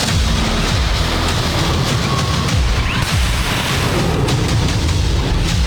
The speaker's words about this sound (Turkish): Uzun menzilli hava savunma sistemi SİPER gerçekleştirilen testte yüksek hızlı hedefi başarıyla imha etti. Milli Savunma Bakanlığı da o anlara ilişkin görüntüleri kamuoyuyla paylaştı. Ateş.